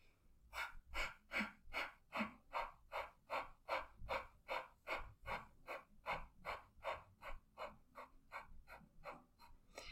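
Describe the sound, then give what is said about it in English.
Quiet, rhythmic breathing exercise: many quick, forceful exhales driven from the stomach, each followed by a passive inhale, repeating at an even, fast pace for the whole stretch. “the idea is, as I said, um, the exhale comes from your stomach and the inhale is is kind of passive. So I shall demonstrate now.”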